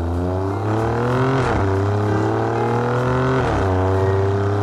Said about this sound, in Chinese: 那第二点呢，是它的声浪比 M3 更加的真实，比 C63 呢更加的高亢，而且非常的线性，是意大利跑车和高性能车特有的那种感觉。